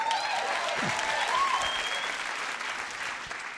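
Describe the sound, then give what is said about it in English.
Standing ovation from a Portland audience, sustained, thick applause from a large crowd that holds steady and eases off slightly near the end. “that was a bona fide Portland standing ovation for Barney Frank”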